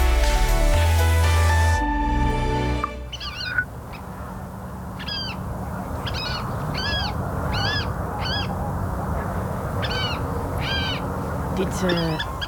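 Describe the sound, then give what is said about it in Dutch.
A water rail, a secretive and rare reed-bed bird, calls repeatedly: a series of short, squealing, harmonic-rich notes, evenly spaced over a rustling, reedy background. “Dit is een waterral. Een geheimzinnige schaarse vogel die je zelden ziet. Leeft in de rietlanden.”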